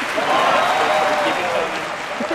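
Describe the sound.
A live studio audience applauds and cheers in a dense, steady wash of clapping that holds loud throughout, with voices talking over it.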